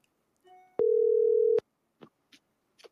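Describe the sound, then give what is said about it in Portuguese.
A telephone ringing tone on an outgoing phone call: one steady, mid-pitched beep lasting under a second. It is bracketed by sharp clicks, and a few short, faint clicks follow. “Acho que eu vou ligar no, no telefone normal dele, quer ver?”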